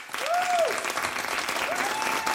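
Dense, steady applause from an audience welcoming two guests onto a German radio show, a continuous wash of clapping with a few faint vocal whoops riding on top.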